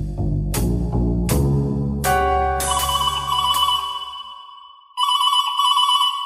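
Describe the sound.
A telephone rings during a call: a few bright, chiming notes fade away, then a loud, repeating electronic ring starts up, with no talking.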